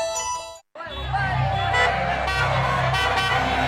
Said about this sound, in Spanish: aunque parezca que hay un montón de tráfico, es que son las 8 de la tarde